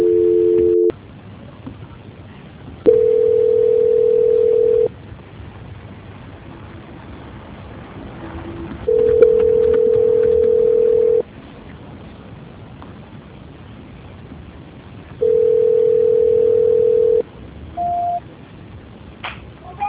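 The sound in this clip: Telephone line tones after a failed call transfer: a steady mid-pitched tone repeats in long beeps of about two seconds with several seconds of hiss between them, ending with a brief, higher beep.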